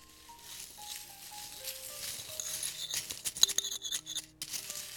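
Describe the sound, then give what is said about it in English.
Dry raisin bran cereal in a ceramic bowl gives off faint, crisp rattling and crackling flakes, soft scraping clicks in an uneven run over a quiet background hum. “So right here, in a nice ceramic bowl, I have the raisin bran cereal.”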